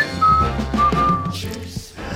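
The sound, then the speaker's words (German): A person whistles a few clear, held notes, a short melodic phrase with a slight change of pitch between notes, over a steady low background. “Pfeif hier nicht rum.”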